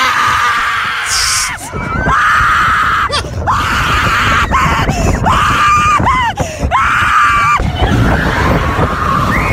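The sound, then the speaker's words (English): Screaming from a rider on a roller coaster drop: loud, sustained shrieks that repeatedly swoop up and down in pitch, broken by short gasps, over a continuous rushing rumble. “I'm about to go on a roller coaster. And a drop's about to occur. It's going to be really lit.”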